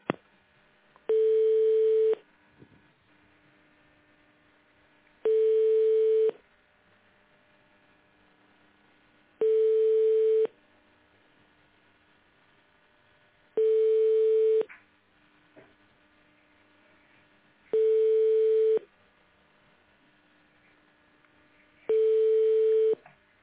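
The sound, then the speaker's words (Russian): Telephone ringing tones while a call is transferred to an operator: six steady mid-pitched tones, each about a second long, evenly spaced by silences, over a faint line hum. “Звонок переводится на оператора. Пожалуйста, ожидайте.”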